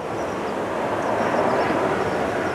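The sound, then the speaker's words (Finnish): A passenger airplane flies low over a park in Lisbon, Portugal. Its broad, steady roar fills the whole clip at an even loudness, with no clear rise or fall, and no voices. “Matkustajakone lentää varsin matalalla puiston yllä Lissabonissa Portugalissa. Lento suuntaa kohti länttä yli Atlantin, kenties Amerikkaan.”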